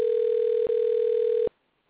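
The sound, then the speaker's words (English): A telephone sounds in the background of an open call-in line as a steady, mid-pitched electronic tone with one brief break, then cuts off, leaving quiet. “that must be a phone ringing in your background”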